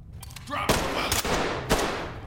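Automatic gunfire in a tactical shooter video game: sustained, rattling bursts that run through the whole clip, punctuated by a few louder, sharper cracks.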